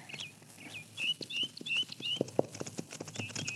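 Horse hooves clip-clopping as riders come along a trail, a faint, steady rhythmic clatter of hoofbeats with occasional high bird chirps above.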